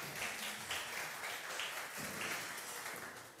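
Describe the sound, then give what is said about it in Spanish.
Applause for an actress at a motivational talk, a steady, dense wash of clapping that holds at moderate loudness throughout without voices over it. “Un aplauso a nuestra actriz.”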